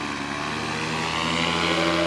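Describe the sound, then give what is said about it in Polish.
A specially built powered paraglider carrying Santa Claus takes off, its motor giving a dense, steady, loud propeller drone that swells slightly toward the end. “Poruszał się na specjalnie skonstruowanej paralotni.”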